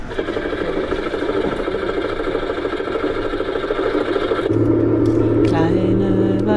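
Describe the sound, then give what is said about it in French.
A Trabant car engine idles with a steady, buzzy mechanical rumble that stays loud throughout, then shifts to a deeper, slightly louder hum near the end. “est-ce qu'on peut démarrer cette Trabant oui, on peut démarrer cette Trabant”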